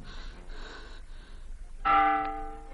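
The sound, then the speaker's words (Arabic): A church bell strikes once with a loud, resonant clang and a long, slowly fading ring, after a few quieter sounds. “لقد دق الناقوس لآخر مرة”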